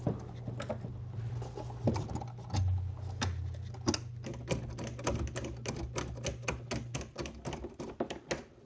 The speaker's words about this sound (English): Three of the four screws are in now, and now the fourth one.